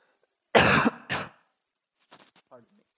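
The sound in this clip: Two loud, harsh coughs from a person who inhaled water while sipping to wet their lips, followed by a few fainter, breathy throat noises.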